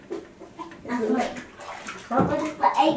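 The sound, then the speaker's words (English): Bathtub water sloshes and splashes as a child is bathed and has their hair washed, continuing under people talking, with a child's voice among them. “Can't have too long of a bath tonight, can we? Because it's late.”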